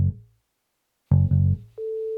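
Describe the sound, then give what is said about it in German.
Telephone line tones sound while a call is placed with the caller's number withheld: a few brief low tones and a pause, then a steady mid-pitched tone that holds to the end. “Wir rufen da jetzt an. Ich unterdrücke meine Rufnummer.”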